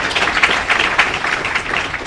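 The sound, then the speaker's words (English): Audience applause for a discussion panel at the close of a session: a steady, moderately loud wash of many hands clapping that holds level throughout without swelling or dying away. “Let's give a round of applause to our panel for the day.”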